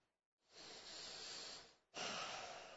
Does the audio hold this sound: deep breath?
yes